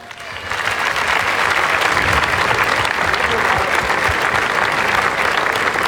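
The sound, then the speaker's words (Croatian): Applause for the Croatian Radiotelevision tamburica orchestra: clapping swells quickly after a short quiet moment, then holds as a dense, loud, even ovation until the end. “Jednim velikim pljeskom, ali samo malo, nemojte odmah pljeskati. Tamburaški orkestar Hrvatske radiotelevizije, maestro Matija Fortuna.”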